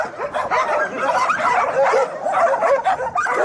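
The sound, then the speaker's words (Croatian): Abandoned dogs bark in a shelter on the left bank of the Danube. Several dogs yip, bark and whimper over one another in a loud, continuous chorus. “Viola Landara, Mirko, Bine, Vili, Foxy, Zira, Brownie i Tiberije neki su od pasa koje su napustili vlasnici, nakon čega su kao takozvane lutalice završili u prihvatilištu Riska na levoj obali Dunava”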